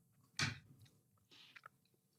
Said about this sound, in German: Ich bin noch am Mümmeln.